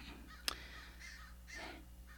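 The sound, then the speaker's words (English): Crows cawing: a few harsh, rasping caws spaced apart, faint and alone. “goddamn crows”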